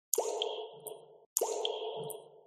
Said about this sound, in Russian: Где-то капала вода.